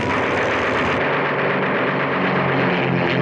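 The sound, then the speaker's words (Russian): Fighter planes, including a Soviet fighter, roar through the air during an aerial battle: a dense, loud, unbroken engine roar with no distinct gaps. “В небо взвивается ракета, все самолеты в воздухе. Суматоха боя, беспрерывным танцем фигур высшего пилотажа мелькают силуэты крыльев.”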